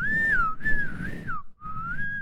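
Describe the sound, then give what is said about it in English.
A person whistles a wavering tune alone. The pitch glides up and down smoothly, breaks off briefly, then picks up again. “I can't whistle in your house.”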